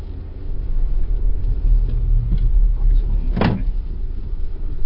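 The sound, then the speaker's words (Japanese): A car setting off from a newspaper office's parking lot after rain, its engine giving a steady, low, loud rumble throughout, with one brief sharp click or knock partway through. “じゃあそれでは早速勇敢デイリー新聞社駐車場を出発したいと思います、 はい、じゃあ出発します。”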